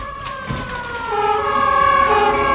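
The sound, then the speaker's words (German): Sirens wail with a wavering tone that swells slightly louder partway through and then holds steady, heard alone without voices. “Was ist das? Sirenen.”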